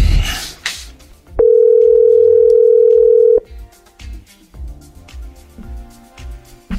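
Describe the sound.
A telephone call rings out with one long, steady, mid-pitched tone lasting about two seconds. The tone is loud and sounds alone, with softer clicks and line noise before and after it.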